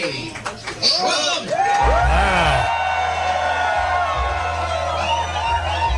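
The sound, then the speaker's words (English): A crowd cheers, whoops and yells as Donald Trump is introduced. The roar stays loud and dense throughout, with high, sliding shouts rising above the mass of voices. “Please welcome the next president of the United States, President Donald J.”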